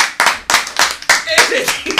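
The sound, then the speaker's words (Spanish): Several sharp, loud hand claps in an uneven rhythm, with people talking over them. “Pero se merece un aplauso.”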